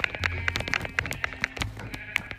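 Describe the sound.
Sheep bleating in a block-building crafting video game, heard as short, repeated bleats among steady clicking and tapping from gameplay, with a low hum under part of it.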